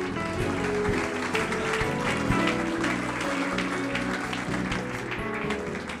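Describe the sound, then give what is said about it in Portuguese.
A church audience applauds, a dense, steady wash of clapping that lasts the whole stretch with no clear break. “Você pode aplaudir ao Senhor?”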